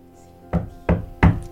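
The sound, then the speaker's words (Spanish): Knocking on a door late at night: three loud, separate knocks at a fairly even pace, each short and hollow, with quiet between them and no voices. “Tocan la puerta. 12:30 de la noche.”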